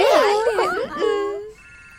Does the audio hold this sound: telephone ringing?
yes